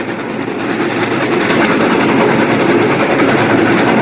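A train travels along the tracks, a loud, steady rumbling roar of wheels and carriages that holds constant throughout with no voices.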